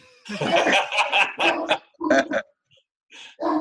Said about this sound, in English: That's my dog.